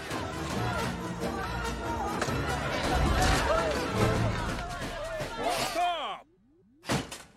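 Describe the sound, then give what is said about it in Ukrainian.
A crowd smashes a car apart, with loud crashing, banging and shattering under shouting voices. The noise then drops to near silence before one last short burst. “Бий Флінта! Давай! Розкидаємо його авто!”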